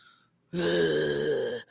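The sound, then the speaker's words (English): A voice imitates a creature breathing heavily, giving one long, low, rasping groan-like exhale that lasts about a second and cuts off sharply, after a brief quiet moment. “I heard those same heavy footfalls approaching me one at a time, right, just like that. And then it was breathing heavily. It was going,”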